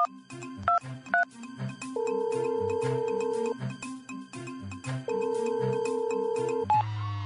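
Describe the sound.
Telephone ringing after dialing a police delegation office in Mexico: two long, steady ring tones over background music, with shorter tones between and after them.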